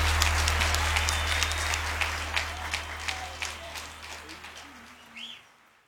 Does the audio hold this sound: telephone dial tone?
no